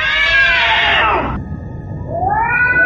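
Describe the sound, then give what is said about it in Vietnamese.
Cats yowling from a crowd of cats packed inside a coffin at night: a loud, harmonic wail that falls in pitch, a short thin tone, then a second yowl that rises and holds. “Giây tiếp theo, tiếng mèo gào thét xuyên thủng trời đêm.”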